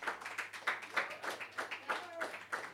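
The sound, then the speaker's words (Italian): Audience applause driven by rhythmic clapping, hands striking together in a steady, regular beat of sharp claps that keeps an even intensity throughout, over a faint low hum. “e gli applausi però non possono scendere di intensità”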